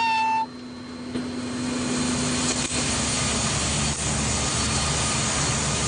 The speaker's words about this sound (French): je vais mettre en puissance, attention, mise en puissance et décollage imminent